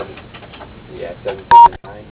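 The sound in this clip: A telephone keypad tone as zero is dialed to reach the operator: one short, steady electronic beep, set among talk.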